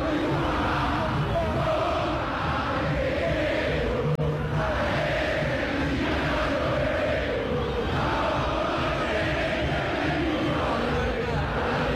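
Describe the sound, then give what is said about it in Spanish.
Boca Juniors supporters sing and chant in the stadium during a match, a dense, continuous mass of voices locked into a rhythmic chant that stays loud and steady throughout. “¿Cómo canta el público de Boca? Escuchen ustedes.”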